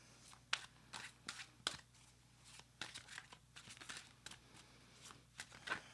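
Faint papery handling of a tarot deck as a card is drawn: soft shuffling, rustles and small scraping taps in many quick bursts, quiet and without voices.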